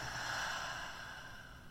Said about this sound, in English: Another one, inhale. And exhale.